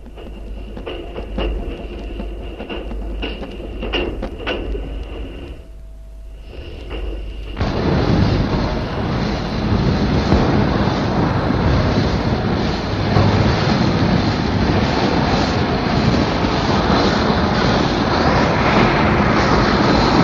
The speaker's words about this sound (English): The driver moves his regulator back, passengers are up and stirring about, and she slips into the platform.